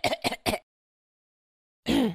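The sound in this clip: A voice imitates a night-time cough with three quick, harsh bursts in a row. A pause of silence follows, then speech begins again.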